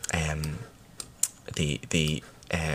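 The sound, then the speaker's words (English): Typing on a computer keyboard: scattered quick clicks that run underneath a voice talking throughout. “Will you stop typing? I'm taking notes.”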